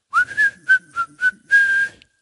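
Someone whistles a short, bright tune alone: five quick notes, the first sliding upward, then a long held final note.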